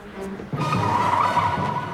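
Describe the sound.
A car drives off, its engine revving up sharply with a tire squeal, then holding a loud, sustained roar of acceleration.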